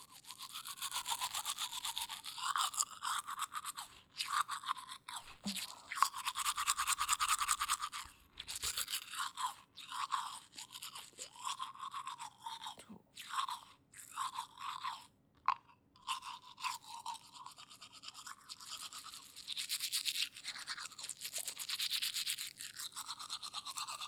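Teeth being brushed with a toothbrush, many quick bristly scrubbing strokes coming in bursts separated by brief pauses, fairly close and continuous with no talking.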